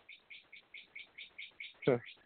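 Birds chirping in a quick, evenly spaced series of many short, high, bright tweets, each a small double-note figure, fairly faint and heard alone without voices.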